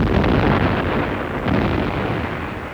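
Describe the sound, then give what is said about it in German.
Cannon fire during military manoeuvres, heard as a loud, continuous, heavy rumbling roar with no separate blasts standing out, steady throughout with no voices. “3 Tage Kanonendonner. Mir dröhnen schon die Ohren.”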